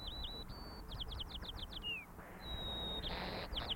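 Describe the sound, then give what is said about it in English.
Songs of two birds recorded only miles apart in different local dialect areas, faint and high-pitched. A run of thin whistles leads into a quick series of down-slurred notes; the second song starts with a long whistle and ends in a rapid trill. “songs of two birds recorded only miles apart, but they live in different dialect areas, and it's that second part of the song that denotes the local dialect in the area in which that bird lives.”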